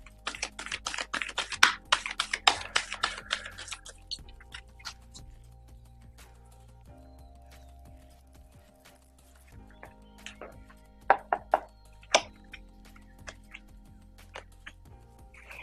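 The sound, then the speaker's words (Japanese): Tarot cards being shuffled by hand: a dense run of rapid papery flicks and riffles for the first few seconds, then sparser taps and slides with a few sharper snaps, all over soft, steady background music. “カードをシャッフルします。少々お待ちください。”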